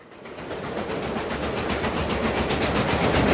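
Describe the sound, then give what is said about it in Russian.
A train at a railway station near a Badalona beach, a broad rumbling roar that swells steadily louder over a few seconds, heard alone without voices. “Железнодорожный вокзал. Чух-чух-чух-чух-чух-чух-чух-чух.”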